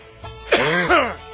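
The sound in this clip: Coughing and spluttering after a drink is inhaled by mistake: two hoarse, voiced bursts close together, with short rising and falling pitch, followed by quieter breathing.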